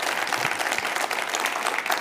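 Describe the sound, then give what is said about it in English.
Audience applause at an Awakening Europe gathering: a dense, steady patter of many hands clapping continuously throughout, with no voices standing out. “Welcome to you also, Sharon. Let's give her a hand also.”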